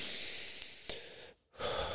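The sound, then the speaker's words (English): Slow, deep breathing through the nose and out through the mouth during seated floor meditation: a long breathy rush of air, a brief near-silent pause, then another steady airy exhale, with no talking. “I take a deep breath in”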